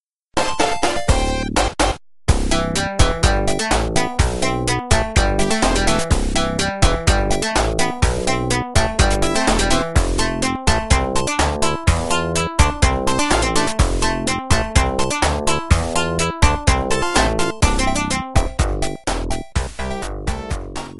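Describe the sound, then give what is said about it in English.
Level music from a video game plays loudly and continuously: a busy electronic tune with a steady, driving beat and bright melody. A brief drop-out occurs near the start. “when he said Labyrinth Zone, which sounds like this”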